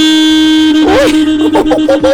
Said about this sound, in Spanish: ¡Uy! ¡Arrancaron! ¡Uy! ¡Arrancaron los bocinazos!